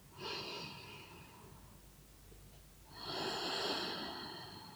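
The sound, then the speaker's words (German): Two slow, deep breaths taken during a guided breathing exercise, each a long, soft, airy rush of air, quiet and heard alone with a short pause between them. “Nimm vielleicht noch mal ein, zwei bewusste Atemzüge, um das genau zu erspüren.”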